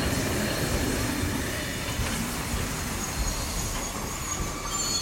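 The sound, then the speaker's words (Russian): A steam train brakes to a stop, with a continuous loud rumble and grinding of rail wheels and faint metallic squeals throughout, with no voices. “останавливает поезд”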